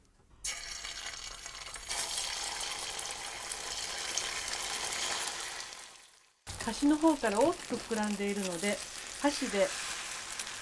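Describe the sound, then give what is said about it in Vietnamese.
An egg mixture sizzles in a preheated, oiled small frying pan. The crackling hiss holds steady for about six seconds and continues after a brief gap while a person talks over it. “Chú ý phải làm nóng chảo trước khi đổ phần hỗn hợp trứng vào. Điều này giúp cho phần trứng tráng sau khi hoàn thành được mịn.”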